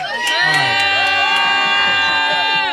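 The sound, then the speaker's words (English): A junior girls' flag football team screams and cheers together in a studio: high-pitched, overlapping shrieks and shouts of young voices, loud and unbroken throughout. “Man, Tina, the Crystal Lake Junior Gators flag football team is with us this morning. All right, ladies, come on, wake people up. Make some noise.”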